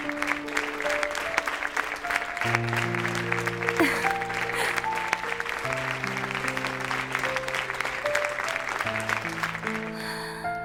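An audience gives dense, steady applause that runs throughout, with sustained musical notes sounding beneath the clapping.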